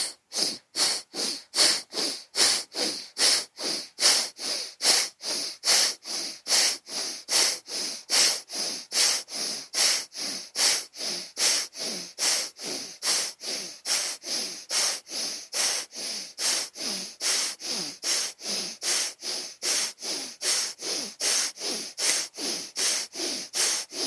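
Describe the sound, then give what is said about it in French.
Rapid bhastrika bellows breathing through the left nostril, with the right nostril closed: a long, unbroken run of many quick, forceful hissing breaths at a fast, even rhythm, with no talk. “tu fermes la narine droite. Ça peut être avec ton index, ton pouce, vraiment peu importe. Et puis ici, on va venir inspirer par la narine gauche et on commence bhastrika.”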